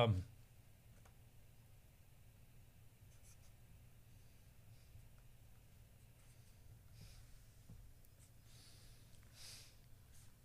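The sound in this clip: A pen scratches faintly as someone draws a diagram of a biological pathway, soft irregular strokes in an otherwise quiet setting.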